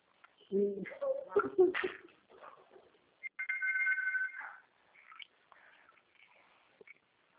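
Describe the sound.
A telephone rings in one sustained electronic burst, steady and mid-pitched, with people talking briefly before it and faint sounds after.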